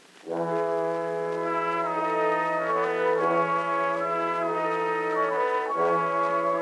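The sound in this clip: A cornet solo from an early Edison cylinder recording made between 1904 and 1908 plays a melody of sustained brassy notes that shift between pitches, at moderate level over a faint background hiss.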